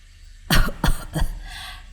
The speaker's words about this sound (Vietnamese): Ông hắng giọng ho lên mấy tiếng rồi nói với hai người bên cạnh.